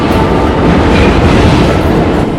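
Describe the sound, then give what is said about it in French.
Metro train pulling away into a tunnel: a continuous, loud rumble with steady rolling wheel noise throughout and no voices. “Derrière la vitre, Max, furieux, suit Antoine des yeux jusqu'à ce que la rame disparaisse dans le tunnel.”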